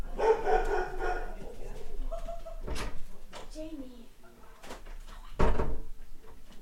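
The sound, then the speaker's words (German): A pet dog barking a few sharp times beneath continuous conversation between people, with faint street noise in the background. “Das ist mein Hund.”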